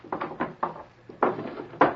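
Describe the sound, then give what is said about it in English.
A desk drawer is unlocked and opened in an office. Short clattering knocks and rattles come in an uneven series, with brief quiet gaps between the louder bursts. “He stepped to his desk and unlocked the drawer.”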